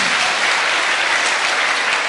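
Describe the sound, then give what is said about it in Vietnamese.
Audience applause during a monk's teaching session, loud and dense, many hands clapping in an unbroken, steady roar from start to finish. “Xin cho một tràng pháo tay.”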